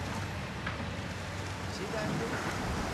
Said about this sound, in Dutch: Hier horen we de Aar weer stromen.